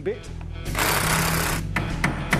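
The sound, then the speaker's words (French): Metal chisel tapped against a worn ball joint to loosen it: a rapid burst of harsh, rattling metallic impacts lasting about a second, then a few separate sharp taps, with speech around it. “Vous pouvez juste prendre un ciseau et taper juste ici. Ça suffit à le desserrer.”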